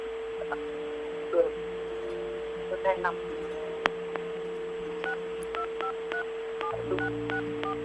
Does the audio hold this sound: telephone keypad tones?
yes

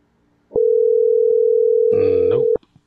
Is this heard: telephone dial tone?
yes

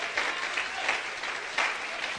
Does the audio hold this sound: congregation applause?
yes

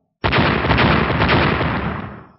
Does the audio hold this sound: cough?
no

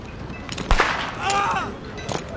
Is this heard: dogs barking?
no

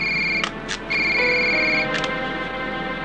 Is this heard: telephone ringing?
yes

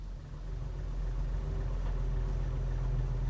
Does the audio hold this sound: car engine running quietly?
yes

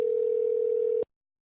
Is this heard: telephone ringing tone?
yes

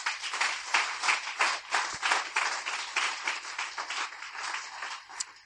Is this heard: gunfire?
no

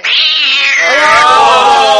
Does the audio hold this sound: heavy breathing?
no

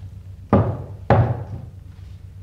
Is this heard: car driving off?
no

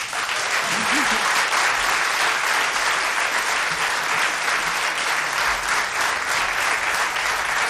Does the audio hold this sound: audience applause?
yes

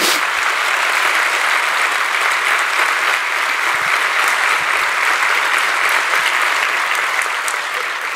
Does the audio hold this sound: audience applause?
yes

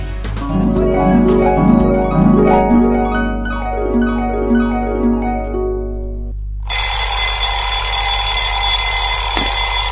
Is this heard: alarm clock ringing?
yes

